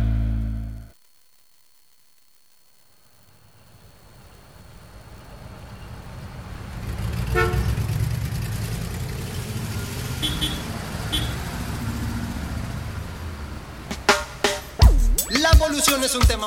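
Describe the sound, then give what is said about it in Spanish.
Busy city traffic in Buenos Aires on a rainy Friday afternoon. After a brief cut, a low, steady rumble of vehicles swells out of near silence, with a few sharper bursts toward the end. “es el tránsito de la ciudad de Buenos Aires, que viernes por la tarde, lluvia, qué bolón, que Buenos Aires no se puede transitar”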